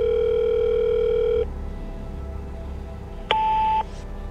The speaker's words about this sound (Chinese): 掏出手机拨通了一个电话